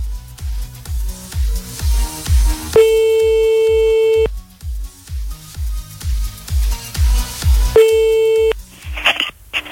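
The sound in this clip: A phone line rings while a call is redialed after a hang-up: two long, steady, mid-pitched beeps sound about five seconds apart. A low, pulsing rhythmic beat thumps throughout, and a short noisy burst comes at the end.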